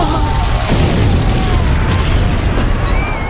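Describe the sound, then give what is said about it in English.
Bomb explosion amid a crowd, a sustained roaring rumble of dense noise with no quiet gaps, while faint high whining tones appear toward the end. “The impact of the bomb took me off my feet.”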